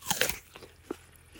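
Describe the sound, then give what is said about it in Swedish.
Someone bites into a fresh apple in an orchard: a loud, crisp crunch at the start, followed by a few fainter wet chewing crunches. “Har du smakat på några av äpplena än så länge? Nej, men låt oss göra det.”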